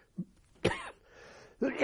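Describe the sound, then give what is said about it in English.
A person coughs and clears their throat: a short, low throaty sound, then two louder, rough coughs with a faint raspy breath between them. The whole run is fairly quiet. “I'm sorry, this cough must be terrible.”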